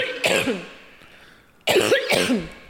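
A person coughs in two loud, throaty bouts separated by a short quiet gap, the second bout longer and made of a couple of harsh bursts.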